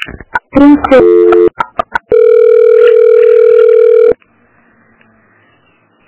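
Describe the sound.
A telephone call being transferred: a quick run of clicks and keypad beeps, then a loud, steady tone that lasts about two seconds before cutting off into near silence.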